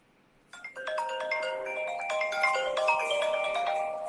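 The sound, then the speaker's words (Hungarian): A phone ringtone for an incoming call starts after a brief silence. It plays a bright, melodic sequence of electronic tones that grows slightly louder as it continues, with no talking over it. “Hívnak a románok, úgy látom. Tudom, valaki hív Romániából.”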